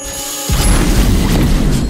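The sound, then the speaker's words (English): A robot fires a laser beam: a sudden heavy booming blast that erupts abruptly and holds as a dense, loud roar until the end. “The robot shoots a laser beam and the whole group disappears.”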